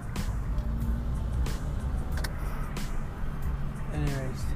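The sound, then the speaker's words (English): A car rumbles along steadily with a low, constant engine and road drone while a person talks over it. “I'm driving here like I'm in a friggin' indie track.”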